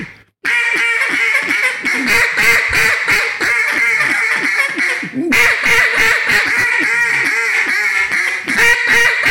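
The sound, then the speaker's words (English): Duck-call quacking from a Jargon Game Calls duck call imitating duck quacks: rapid, raspy, nasal quacks in a steady rhythm, loud and continuous, with one short break midway before the calling starts again. “I want to get the duck right because I really like those ducks. And fine is so fine. Was that too much rasp for that?”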